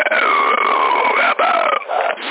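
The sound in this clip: A burp-like sound comes over CB radio: a narrow-band, drawn-out croaking with sliding pitch, broken by two short gaps near the end.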